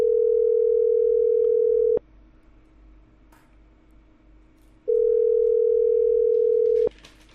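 Ringback tone on a telephone line after a number is dialed: two long, steady mid-pitched beeps, each about two seconds, separated by a few seconds of quiet line hiss, each ending in a sharp click.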